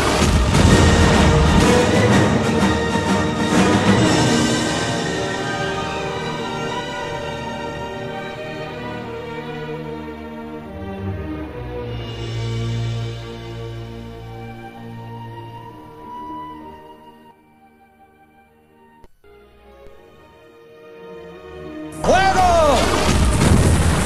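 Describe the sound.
Cannon fire in a dramatized scene of the city defense led by Blas de Lezo against English ships. Heavy booming bursts come at the start, then sustained tones and a voice as the blasts fade.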